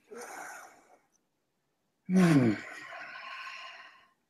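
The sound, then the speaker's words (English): A deep breath taken during a guided meditation: a soft, airy inhale, a pause, then a louder, longer sighing exhale that starts strong and fades out gradually. “So we're here, close our eyes, take that deep breath in.”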